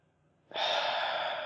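A man groans, a single long breathy exhalation that starts abruptly about half a second in and holds steady and fairly loud to the end, airy rather than clearly voiced.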